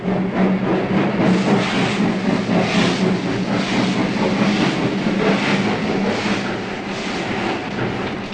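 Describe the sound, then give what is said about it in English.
A huge steam locomotive, black with red wheels, slowly hauls a few carriages away from a station platform. A steady, loud rumbling and clattering roar continues without a break. “The huge engine, black on a base of red with red wheels, hauls its few carriages slowly away from the platform. The pure white column of smoke from its funnel broken momentarily by a footbridge over the tracks.”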